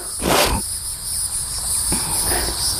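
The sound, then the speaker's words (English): Cicadas droning under shade trees in a cemetery, a steady high-pitched buzz that runs throughout, with a couple of broader whooshing swells passing over it. “Yeah, you've got all those cicadas going off.”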